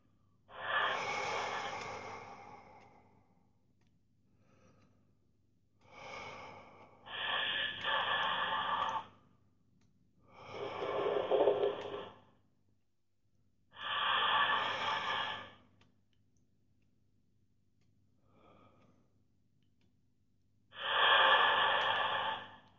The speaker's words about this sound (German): nimm deinen Atem wieder wahr. Dieses verstärkte Ein- und Ausatmen. Fülle deine Lunge mit Sauerstoff.